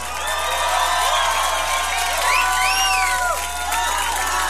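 Crowd applause for a band, continuous clapping with cheers and several rising and falling whistles cutting through, loud and sustained.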